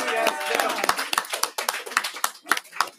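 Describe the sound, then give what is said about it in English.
Audience clapping for two Valentine couples on a show, a brief burst of uneven claps that follows a voice at the start and fades over three seconds. “Audience, let's give them both a hand.”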